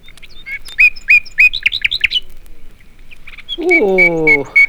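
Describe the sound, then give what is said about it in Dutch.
Nightingale song from a Dutch fairy-tale vinyl record: bright, high chirps and trills repeat in quick, loud bursts. A lower, harsher, drawn-out falling call follows near the end. “Maar toen de nachtegaal ging zingen...”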